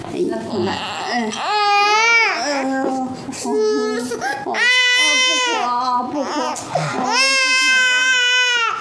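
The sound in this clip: An infant cries while its father holds it, loud wailing cries with strong harmonics coming in several long bursts and pauses, each rising and falling.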